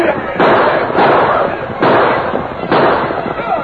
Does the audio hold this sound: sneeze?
no